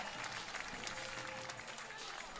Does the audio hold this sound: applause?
yes